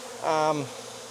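Honey bee buzzing at an opened beehive during an inspection: one short, bright droning burst of about a third of a second that sinks slightly in pitch as it fades, leaving quiet.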